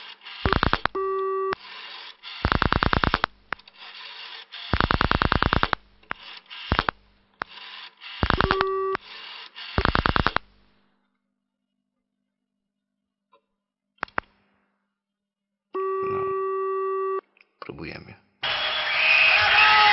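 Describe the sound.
A telephone busy signal follows the dialing of a long international number to Chicago. Harsh mechanical whirring bursts of dialing come first, then a pause of near silence and a single steady buzzing tone, ending in a wash of noise.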